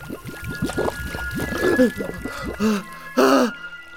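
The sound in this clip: Water splashing in a German radio drama, short bursts of pouring and dribbling liquid mixed with a man's gasps, groans and exclamations; the splashes come in several uneven spurts before a sudden stop.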